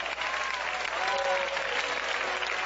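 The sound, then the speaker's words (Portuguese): A church audience claps their hands in praise during a worship service, a dense, steady wash of applause that holds at an even loudness throughout without breaks. “Podem louvar a Deus com palmas.”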